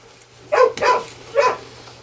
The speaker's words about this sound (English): My dog's losing her friggin' mind.